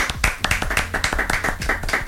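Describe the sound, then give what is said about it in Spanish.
Applause of many quick hand claps in a fast, steady rhythm, crisp and moderately loud throughout, with no voices. “¡Aplausos!”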